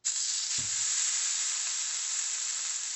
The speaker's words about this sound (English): Time to fry the burger. I'm going to do it in the same pan with that bacon grease.